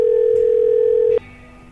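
A steady telephone dial tone sounds while a convenience store is being called. It holds loud and even for about a second, then cuts off abruptly into a much quieter, faint tone.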